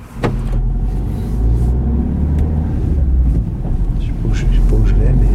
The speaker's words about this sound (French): Mathieu et nous, on est toujours dans votre voiture